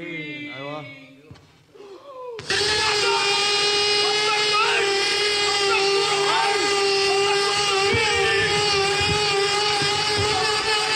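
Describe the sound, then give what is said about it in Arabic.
A power drill starts after a brief stretch of talk and then runs loud and steady for about nine seconds, with a high, even mechanical whine. “هيدا مقدح واحد اللي سمعينه”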